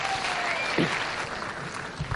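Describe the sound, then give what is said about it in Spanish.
Audience applause breaks out for a woman called onstage, a dense, steady clatter of many clapping hands that holds at an even loudness for about two seconds. “Un aplauso a Sonia.”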